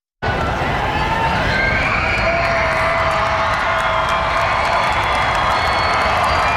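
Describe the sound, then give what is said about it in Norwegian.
A huge crowd of over 100,000 roars as Norway's men's national football team walks out at Slottsplassen in Oslo. The cheering bursts in abruptly after a brief silence and holds as a loud, steady wall of noise to the end. “De norske fotballherrene skal nå kjøre gjennom Oslos gater etter å ha blitt tatt imot på Slottsplassen. Slik hørtes det ut da laget gikk ut til over 100 000 frammøtte.”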